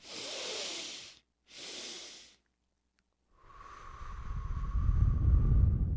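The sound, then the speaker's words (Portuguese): Breathing exercise with two short, breathy inhalations, a brief silence, then a long, slow exhale that grows steadily louder and gains a low, rumbling, wind-like hiss. “Então eu inspirei normal, inspirei o máximo, bem rápido, máximo que eu pude, e solto devagarzinho.”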